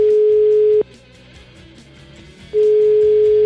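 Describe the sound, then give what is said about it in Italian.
An outgoing telephone call ringing through: a steady mid-pitched ringback tone sounds, stops for almost two seconds, then starts again. “Per esempio, chiamiamo Giulietto Chiesa.”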